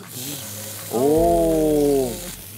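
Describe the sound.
Meat sizzles in a pan beside onions, a continuous frying hiss that swells louder and fuller for a stretch in the middle before easing back to a lighter crackle.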